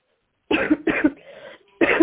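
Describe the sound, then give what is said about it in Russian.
A woman with a cold coughs three times: two quick harsh coughs close together, a brief raspy breath, then a third cough after a short pause. “Нет, я не хочу, чтобы ты кашляла тут.”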